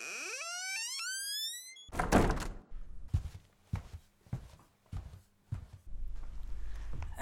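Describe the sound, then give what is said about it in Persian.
Knocking on a gate: a few heavy, hollow thuds spaced unevenly, preceded by a rising, gliding synthetic tone. “دروازه را میکوبن. بیا داخل، دروازه باز است. چه دارم که دروازه را قفل و بست کنم؟ بیا داخل.”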